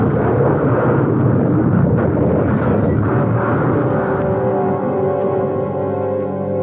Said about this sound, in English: A tire blew, and the car slewed, sliding toward the road edge. Then we hit a rock and went rolling.